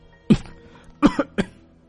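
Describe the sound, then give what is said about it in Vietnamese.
Dry coughs from a man coughing up blood: four sharp, fairly loud hacks, a single one first, then a quick burst of three, with quiet between and no talk. “Đới Kim Song ho khan mấy tiếng, khoe miệng chảy ra một dòng máu tươi.”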